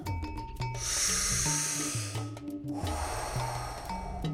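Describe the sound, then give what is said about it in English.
A deep breath during a guided breathing exercise: a long, airy, hissing inhale is followed by a slower, softer exhale, both steady and fairly loud. “Deep breath in, deep breath back out.”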